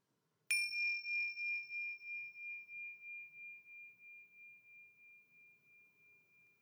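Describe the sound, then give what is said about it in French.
A small bell is struck once to begin a meditation exercise, leaving a clear, high ringing tone that fades slowly with a gentle wavering pulse over several seconds, alone in quiet. “Et quand tu entends la clochette, nous commençons l'exercice.”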